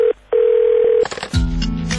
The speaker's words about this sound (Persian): مشهد تماس می‌گیرم.